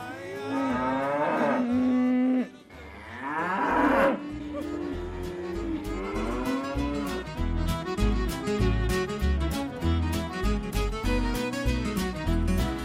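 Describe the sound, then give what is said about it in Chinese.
Calves being herded by a singing cowboy moo in several long, drawn-out calls, loudest over the first four seconds, then continue lower beneath a steady, regular rhythmic beat. “所以牛仔还是一边唱着歌，一边赶住这些小牛。”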